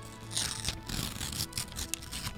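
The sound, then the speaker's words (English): Paper tearing as a winner's envelope is ripped open at an awards presentation, a faint, brief run of crinkly ripping and rustling. “Delicate rip there.”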